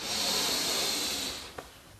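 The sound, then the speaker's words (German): A long, deep breath during a guided relaxation exercise, heard as a loud, airy hiss that holds steady and then fades, with a small click as it trails off. “Nimm gemeinsam einen tiefen Atemzug und atme ein.”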